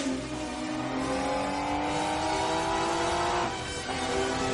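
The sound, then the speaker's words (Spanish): A car engine roars as the car reverses and then speeds down a corridor, a loud sustained revving whine whose tones climb slightly before cutting off near the end. “Da marcha atrás. James tiene los ojos cerrados. Circula por un pasillo a toda velocidad.”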